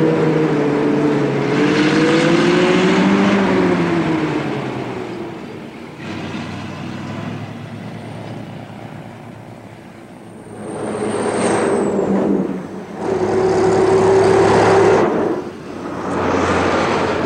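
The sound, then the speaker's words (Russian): A bus pulls away with a loud, deep engine drone that rises in pitch, eases off, then swells again later, with no voices. “Автобус уезжает”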